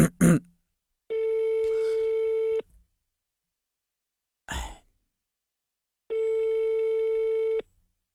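Ringback tone of an outgoing telephone call: two long, steady, even-pitched tones, each about a second and a half, separated by a quiet gap. A brief breathy noise falls between them, and short rustling sounds come before the first tone.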